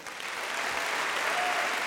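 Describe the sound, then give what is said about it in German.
Studio audience applause at a televised quiz show: a dense, steady wash of clapping that holds at an even loudness for about two seconds, with no voices rising above it. “Bitte Applaus für Herrn Surbier.”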